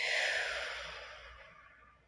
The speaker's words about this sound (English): And we'll end today with a deep breath in, deep breath out.